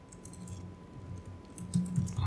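Soft key clicks patter on a computer keyboard as a Google search is typed, quiet and irregular, growing a little louder toward the end.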